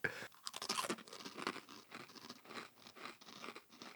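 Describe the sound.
Chewing on jerky coated in Reaper Squeezins hot sauce makes faint, crunchy, wet bites in an irregular rhythm, with many small bursts close together and no talk over them.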